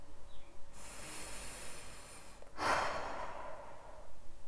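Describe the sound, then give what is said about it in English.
Deep belly breathing during a meditation: a slow, airy inhale followed by a longer, breathy exhale, faint and alone with no talk. “Take deep belly breaths.”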